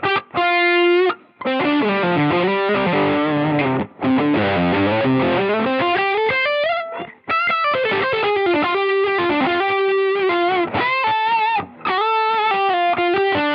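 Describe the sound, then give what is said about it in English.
Electric guitar played through a Super Champ amp with a little quiet delay and some chorus mixed in, giving a very midrange tone; many distorted notes and phrases run steadily, broken by a few short pauses. “And as you can hear, there's a little bit of delay on that. It's very quiet, actually. But that's the Super Champ with actually a little bit of chorus mixed in as well, just for widening.”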